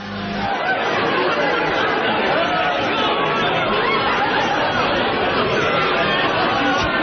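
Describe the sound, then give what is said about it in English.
Party crowd chatter sound effect: a dense, continuous babble of many voices talking over one another, steady and loud throughout. “Should we wait for the party? All right, we'll wait for the party sound effect.”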